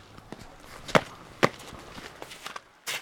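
Footsteps stepping out onto frosty black tarmac: a few light, crisp scuffs, two of them sharp and distinct, against a quiet background.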